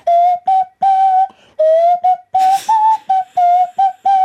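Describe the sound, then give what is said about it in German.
A tune played by blowing air through the nostrils while the mouth shapes the tone: many short, loud, whistle-like notes in a quick rhythm, with a brief breathy burst midway. “Das heißt, Sie blasen mit den Nasenlöchern da Luft rein? Genau, und mit dem Mund forme ich praktisch da den Ton.”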